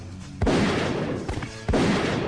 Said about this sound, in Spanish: Por favor, disparale con todo.